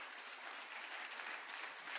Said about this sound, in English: Didn't God do it again? Give him a good clap offering. Isn't God good?